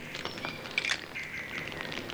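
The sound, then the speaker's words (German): Birds chirping under the roof of a hut; a few faint, brief high chirps rise over a soft, steady background hiss. “Horch mal, klingt so, als wären hier irgendwo Vögel. Ja, ich glaube, sie sind direkt unterm Dach.”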